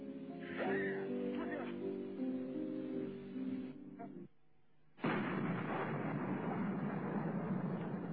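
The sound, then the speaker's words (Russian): Gunfire in the distance comes as dull booming bursts beneath voices on a crackly radio link. A brief drop-out is followed by a harsh, sustained rush of noise. “Прикольно, что там стреляет.”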